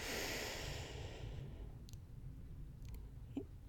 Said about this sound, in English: Now we take another deep breath in